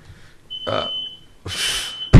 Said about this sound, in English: Fire alarm set off.